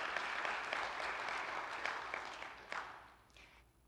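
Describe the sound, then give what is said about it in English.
An audience clapping together, a quiet, dense patter of many hands that holds steady, then thins and fades away into near silence by the close. “I'm glad you clapped.”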